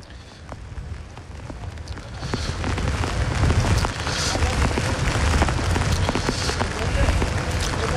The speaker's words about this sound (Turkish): Şu anda da yağmur yağışı yaklaşık 5 dakika önce başladı, sağanak bir şekilde devam ediyor.